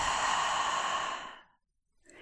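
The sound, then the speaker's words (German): A long, deep exhale through the mouth during a guided breathing exercise, an airy rush of breath that holds steady and then fades to silence, with the faint start of another breath right at the end. “Atme tief durch die Nase ein und vollständig durch den Mund aus.”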